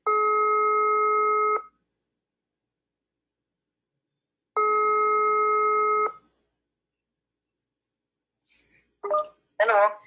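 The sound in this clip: Ringback tones of an outgoing telephone call: two long, steady, buzzy tones of about a second and a half each, separated by a silent pause of about three seconds, then a voice answers.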